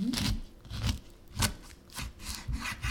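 Thin peel being pared from washed, dried oranges and lemons, heard as a series of short, rasping scraping strokes in an uneven rhythm, moderately quiet and with no talk.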